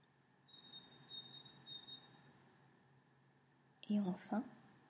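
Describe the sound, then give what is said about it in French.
A small bird sings faint, high chirps in the background: three short repeated phrases over quiet hiss, followed by a brief burst of a voice near the end. “Et je vous fais même cadeau du petit oiseau en fond sonore.”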